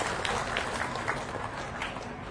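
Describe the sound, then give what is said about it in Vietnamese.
Applause at a Buddhist temple in honor of donors: a thick, continuous patter of many clapping hands, steady in level, with a few sharper claps poking through. “Xin quý vị dành một tràng vỗ tay để tán dương các vị Phật tử đã trực tiếp hoặc gián tiếp tham gia đóng góp.”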